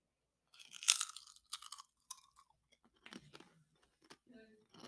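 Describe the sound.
Crunching on a spicy, orange-colored chip: one sharp, bright bite is followed by many quieter, irregular chewing crunches, all faint against near silence.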